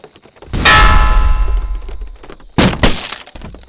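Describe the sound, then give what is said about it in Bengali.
A hammer breaks the lock of a magazine room with a loud metallic clang that rings and crashes out, then a second burst of sharp breaking strikes. “হাতুড়ি আন magazine রুমের তালা ভাঙতে হবে”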